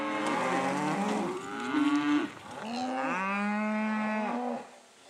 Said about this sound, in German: Das Rind ist ja ein Herdentier und dementsprechend muss es wandern.